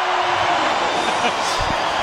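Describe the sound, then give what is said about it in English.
Crowd in full voice at a rugby match involving Italy, heard as a loud, steady roar that fills the whole stretch while play is paused for an injured player. “Well, the crowd in full voice as the precautions continuing to be taken with Tomasi Allen.”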